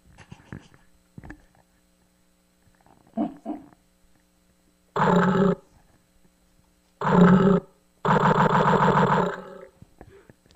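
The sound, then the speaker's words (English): Monster roars coming from the walls: three loud, rough roaring bursts in the second half, the last one the longest, after a few brief, quieter sounds early on. “And there were all sorts of like roars and stuff coming from the walls.”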